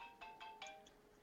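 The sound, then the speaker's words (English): A phone ringtone from an incoming call: a quick run of short, bright electronic tones in a steady pulse, faint and alone. “I got some phone call coming through on my phone.”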